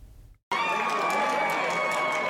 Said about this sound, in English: The crowd at Chris Taylor's election night party expected her to win the election for a seat on the Wisconsin Supreme Court. But that confidence didn't diminish the excitement for when the race was officially called before 9 o'clock.